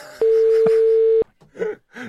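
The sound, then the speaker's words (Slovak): A telephone tone as a number is dialed for a call: one loud, steady beep lasting about a second, followed by a few brief, softer sounds. “skúsim zavolať, vytačam”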